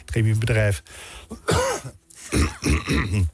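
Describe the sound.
A throat-clearing cough during a radio discussion of toxic PFAS chemicals: a brief, rough, raspy burst set among voiced, speech-like sounds.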